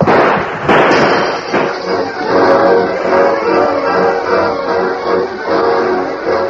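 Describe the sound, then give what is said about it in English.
Gunshots on a ranch in a dramatized scene: a few sharp bangs burst out at the start, followed by a sustained, loud crackling rumble. “The entire ranch was aroused by the shooting.”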